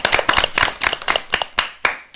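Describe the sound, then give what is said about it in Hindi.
A group of children claps in a short burst of uneven, overlapping claps. It lasts about two seconds and thins out toward the end. “तो हम इसके लिए तालियां बजाएं।”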